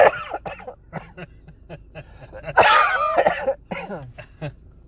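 People coughing and clearing their throats while trying to smoke: a run of short, harsh coughs and throaty rasps, with a louder, longer hacking fit in the middle before it settles into a few scattered coughs.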